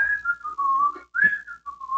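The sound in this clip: A person whistles a cheerful tune alone. The clear high notes slide downward in two short phrases separated by a brief pause.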